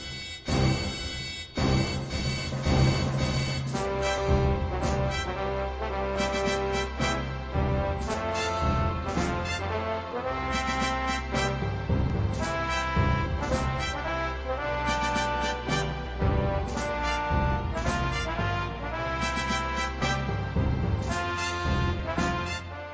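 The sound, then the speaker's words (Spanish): Music from the Giant Robo anime soundtrack plays on its own throughout: dense, continuous instrumental music with a steady driving rhythm and no voices. “Ya ves, mira lo que estamos escuchando, ¿eh? Giant Robo, qué maravilla.”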